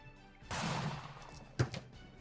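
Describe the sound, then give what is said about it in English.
A die rolled during a tabletop role-playing game, heard faintly: a soft rattling rush, then a couple of quick clattering knocks as it lands. “Please roll the die.”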